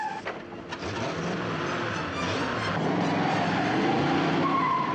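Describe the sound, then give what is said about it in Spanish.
A car brakes hard on a snowy road and then reverses, its engine droning steadily with a scraping, skidding hiss that swells slightly toward the end. “Llega el coche de Cruella. Frena y da marcha atrás.”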